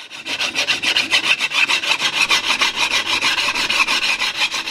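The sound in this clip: A metal file rasps across the sheet-brass body of a wind instrument during hand finishing, in many fast, even, rhythmic strokes that are loud and steady, with no voices.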